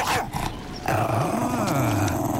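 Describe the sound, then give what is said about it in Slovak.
A dog growls low and continuously, its rumbling pitch wavering up and down over a dense, loud background that runs through the whole stretch. “Chyci svojho psa”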